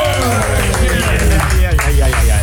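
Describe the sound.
Clapping and cheering fill a live radio studio at a music festival as a band that opened the event is welcomed, the applause mixed with a hubbub of voices talking over it.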